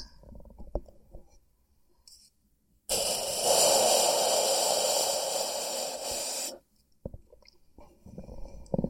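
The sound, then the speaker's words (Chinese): Close breathing right at the microphone: one long, loud, hissing breath lasting several seconds, with quieter stretches of faint clicks and soft mouth sounds before and after. “我的呼吸是不是听得非常的清晰？”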